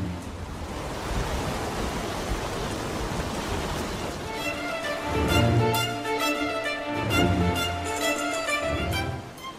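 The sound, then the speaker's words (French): Rough, raging sea waves roar as a steady, dense wash of surf noise. Musical tones come in over the second half, swelling and pulsing with the water. “Vous entendez comme la mer est déchaînée.”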